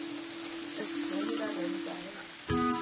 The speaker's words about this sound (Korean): 토마토를 썰어 넣고 다른 재료도 함께 볶아주세요. 이렇게 팽이버섯을 넣어주세요.